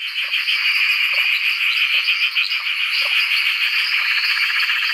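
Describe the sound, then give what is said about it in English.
Hundreds of Perrin's tree frogs call at a back dam in Bungwall after heavy rain, forming a dense, continuous high-pitched chorus of overlapping trills and clicks that stays loud and even throughout, with no voices. “He reckons there's got to be hundreds of Perrin's tree frogs”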